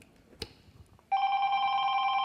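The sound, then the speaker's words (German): A shrill apartment doorbell rings as one loud, steady electronic tone that holds without a break. A single faint click comes before it. “jetzt habe ich geklingelt, haben das schreckliche Geräusch gehört, was Sie da gerade hatten.”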